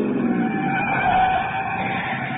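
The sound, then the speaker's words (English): A car speeds off up a steep, twisting mountain road, its engine roaring steadily with squealing tyres held loud throughout. “We piled into the car and took off after Chase up a twisting, steep mountain road.”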